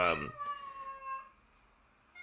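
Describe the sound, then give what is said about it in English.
A cat locked in a room meows once, a drawn-out cry that slowly sags in pitch before fading into near silence. “my cat got locked in. Hold on a second.”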